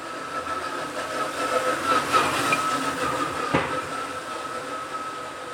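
Train noise in a busy French railway station on a Friday evening: a steady, loud rumble of rolling rail cars with a thin, sustained high squeal of wheels running through it.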